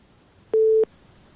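A single busy-signal tone from a phone call that failed to connect: one short, steady, mid-pitched beep lasting about a third of a second, heard alone against a faint background.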